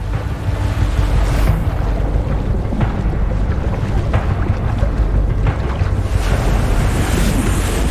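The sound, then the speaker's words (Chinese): Tidal water surges in continuous loud, churning washes of waves, with heavy wind noise rumbling throughout and no voices. “不幸的是，那头雌性幼崽被潮水卷得越来越远”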